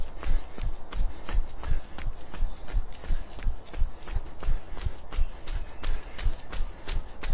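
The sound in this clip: Jogging footsteps land in a steady, even rhythm of many soft thumps during an exercise routine, with no talking over them.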